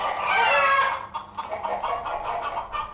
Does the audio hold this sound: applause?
no